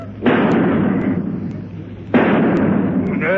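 Two loud gunshot sound effects from a comedy sketch, each fired at a fly crawling up a wall. Each lands as a sharp blast followed by a long, rumbling decay, with nearly two seconds between the shots.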